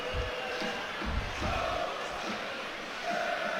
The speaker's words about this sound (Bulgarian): Логични са и тези освирквания от трибуните, от феновете на Ботев Пловдив